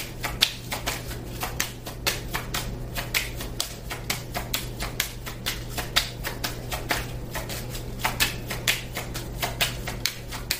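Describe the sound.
A deck of tarot cards is shuffled, producing many crisp, rapid clicks and riffling snaps in an uneven rhythm over a faint steady hum.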